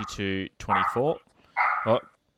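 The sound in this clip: A dog barks in a few short, loud, harmonic bursts, separated by brief pauses.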